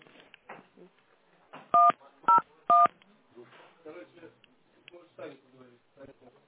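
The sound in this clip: Three telephone keypad tones beep in quick succession while a call is being transferred, each a short, loud, clean dual-pitched note, set among faint talking before and after.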